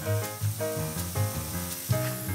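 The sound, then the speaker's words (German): Mushrooms sear hot in olive oil with a continuous sizzling hiss, steady and fairly quiet, with slight swells and no talking. “brät die Pilze scharf in Olivenöl an”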